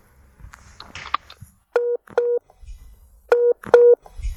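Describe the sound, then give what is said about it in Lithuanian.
Touch-tone beeps of a telephone number being dialled for a call to Norway: four short, clear electronic tones in two pairs, following a few seconds of faint rustling and soft handling noises. “Vasaros pabaigoje paskambinau Laurai į Norvegiją.”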